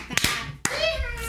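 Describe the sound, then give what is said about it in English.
An audience claps hands along to a children's clap-along song: a few sharp, distinct hand claps with a brief gap between them, mixed with children's voices. “If you're happy and you know it, clap your hands.”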